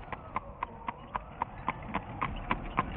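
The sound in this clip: Clip-clop of hooves from a horse-drawn mail coach passing, a steady, evenly spaced trot of many faint hoofbeats running through the whole clip over a soft rumbling background.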